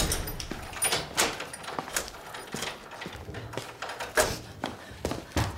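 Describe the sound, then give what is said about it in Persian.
A door is being locked during a heated domestic argument, with a run of clicks, knocks and dull thuds that repeat in irregular succession. “من در قفل کردم تا وقتی من نخوام نمیتونیم برین”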